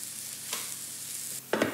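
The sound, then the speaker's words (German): Food fries slowly in oil in a pan with a soft, steady hiss, then a few louder scraping bursts near the end as it is stirred. “sind schon in der Pfanne und braten langsam vor sich hin.”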